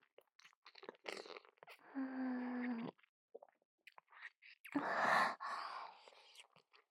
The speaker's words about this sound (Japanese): つば、おいしい。弟くんとのキス、久しぶりだね。